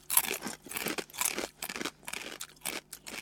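Someone chews a garlic-flavoured snack in a quiet, steady run of many crisp crunches, evenly spaced with brief pauses between bites. No talk is heard.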